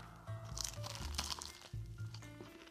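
Faint crunching and crinkling as someone bites into a baked banana-filled sweet with a caramelized surface, with a few soft crisp crackles and low dull thumps.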